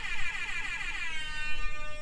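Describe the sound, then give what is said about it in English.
An air horn sound effect played from a phone app blares as one continuous, wavering harmonic tone, loud and sustained for the whole stretch. “Yeah, for that wonderful air horn app. Yes, that is amazing.”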